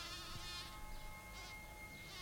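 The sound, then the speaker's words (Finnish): Bees buzzing on a warm summer day, a faint, steady insect drone with wavering swells and thin sustained tones running beneath it, with no voices. “ilma on täynnä mehiläisten surinaa”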